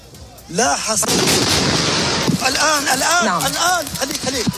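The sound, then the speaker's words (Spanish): A projectile strikes a hospital building in southern Gaza during a bombardment: a sudden loud blast opens into a long roar of rumble and debris lasting over a second, followed by people shouting and crying out. “Este es el instante en el que un proyectil impacta contra el hospital Nasser, al sur de la franja de Gaza.”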